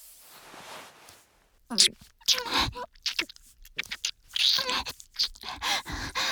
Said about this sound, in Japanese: はい、耳舐め続けます。